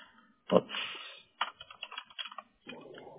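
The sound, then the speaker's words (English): Soft keystrokes on a computer keyboard come in short clustered bursts of quick taps separated by brief pauses, with no talking. “Oops. I can't type this morning. This is bad. I'm catching my typos.”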